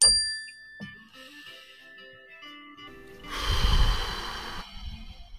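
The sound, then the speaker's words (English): A mindfulness bell struck once at the start, its bright chime sustaining clear ringing overtones that slowly fade. A loud, breathy exhale follows near the end. “So when you hear the mindfulness bell right now, everybody just remember where your feet are currently planted”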